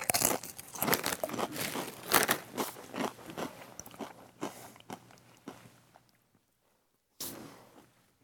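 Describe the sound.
Crisp crunching as tangy Doritos chips are bitten and chewed: a quick run of many loud crunches that gradually fades, then a short silence and one more sharp bite.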